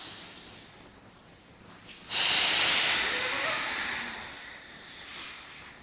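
A long, forceful exhale during a breathing exercise: a breathy hiss starts abruptly and swells loud. It then fades gradually over several seconds, with no speech.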